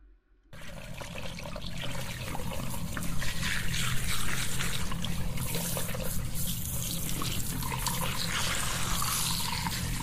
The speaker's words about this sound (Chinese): 现在我们来冲头发了啊，来冲水